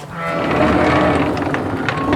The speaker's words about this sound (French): Donc voilà, bon, des brebis Lacone. Brebis Lacone croisées avec du suffolk.